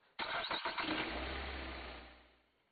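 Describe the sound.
A car engine starts with an abrupt burst and a few quick sputtering pulses, settling into a low rumbling drone that gradually fades away.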